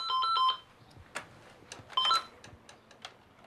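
Telephone ringing in two short bursts of bright electronic warbling tones separated by a pause. The rings are fairly faint, with a few soft clicks scattered between and after them.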